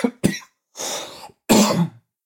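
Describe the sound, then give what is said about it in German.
A person's cough, heard as three or four harsh bursts in quick succession: two short sharp hacks, then a longer rasping exhale and a final heavy cough. The coughs are loud and occur alone, with no talk. “Vielleicht solltest du mal was nehmen bei dem Husten.”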